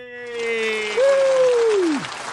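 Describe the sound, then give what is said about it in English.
Audience applause at a live comedy show's startup spelling bee game, a broad wash of clapping with a single voice letting out a long, bright whoop that rises, then slides down and fades. “That, by the way, is more applause than any real spelling bee has received.”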